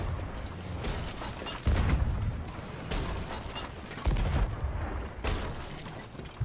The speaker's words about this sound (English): is now starting to unload regular cannonballs into the broadside of the galleon as they circle around.